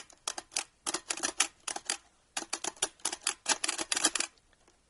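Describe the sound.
Mechanical typewriter keys clatter in quick runs of crisp, sharp strikes, grouped into bursts with a brief pause near the middle. The typing is fairly quiet and no voices are heard.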